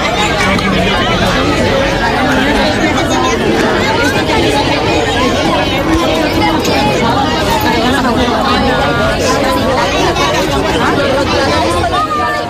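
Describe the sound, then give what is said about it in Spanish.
Children arrive at school in Elche and reunite, filling the air with a dense, lively bustle of overlapping chatter, calls and shouts that stays loud and constant. “Esto que ustedes han escuchado es el bullicio de los niños y niñas, de la llegada de esos niños y niñas a los coles, de esos reencuentros que han tenido.”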